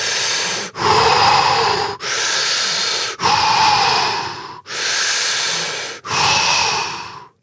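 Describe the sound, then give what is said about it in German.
Rapid, intense belly breathing demonstrates a warrior breathing technique: six forceful, hissy breaths follow each other in quick succession, each a broad rush of air with barely a pause between them, and no talking. “Du atmest relativ intensiv, also sehr schnell, und zwar immer in den Bauch, nicht in die, in die Brust, sondern in den Bauch rein. Und zwar ungefähr so.”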